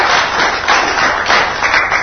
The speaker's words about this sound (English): I'll just pass it over to you if you want to give Jeff a hand clap for being so honest with us.